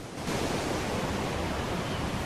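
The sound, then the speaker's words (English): A dark sea churns and foams as it rolls onto a rugged island shoreline. The surf makes a steady, broad roar with no distinct breaks, fairly soft in level. “The dark sea churns and foams as it rolls into the rugged shoreline.”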